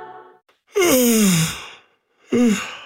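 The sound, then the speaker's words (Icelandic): A person yawns in a long, breathy, drawn-out vocal sound whose pitch slides downward, then, after a pause, a shorter breathy vocal sound follows. “Ef þú geispaðir líka, þá gæti verið sniðugt að opna gluggan aðeins.”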